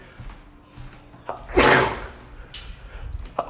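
A single loud, sharp sneeze bursts out amid quiet background, from someone with allergies, briefly followed by faint rustling and a small click.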